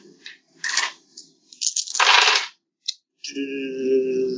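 Eight dice rolled for a tabletop role-playing skill check clatter in a few sharp, rattling bursts separated by short pauses, followed by a steady tonal sound.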